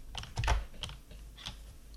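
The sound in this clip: A few quick keystrokes as a command is typed on a computer keyboard: light, irregular clicks, faint and with no voices.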